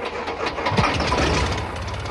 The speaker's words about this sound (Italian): E prima che Giullarino potesse riprendere fiato, stavano già filando sulla pista. E poi, con suo grande stupore, si alzarono in volo.